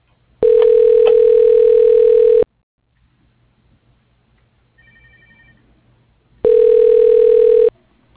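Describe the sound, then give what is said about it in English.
Ringback tone sounds while a phone extension is being dialed: two loud, steady ring bursts of about two seconds each, separated by a long quiet gap with faint low noise. “Dialing David Shin. Extension 113.”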